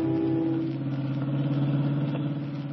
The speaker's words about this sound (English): Otherwise, why are you riding with George Flitt, detective, in his hot rod jalopy?